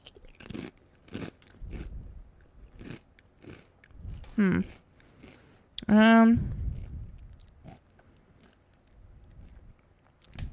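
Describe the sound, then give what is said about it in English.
Crunching and chewing of cheddar and red onion chutney crisps, heard as a series of sharp, dry crunches. A short hummed voice sound comes twice between the bites. “I'm here alone trying the chip at the end of the episode. I did not get a chance to try it when the boys were done, so I'm trying it now.”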